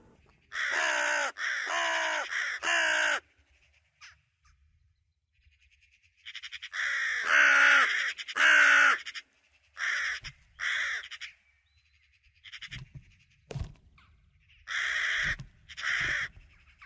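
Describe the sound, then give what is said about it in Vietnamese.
An unidentified bird cries mournfully in harsh, hoarse caws, loud and alone, coming in clusters of two or three calls with pauses between them. “Còn lại, chỉ còn mỗi con chim không rõ tên đó vẫn kêu rên thảm thiết.”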